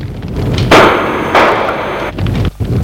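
Two loud gunshots striking a wall, each a sharp burst with a lingering noisy tail, about half a second apart, followed by quieter rumbling noise.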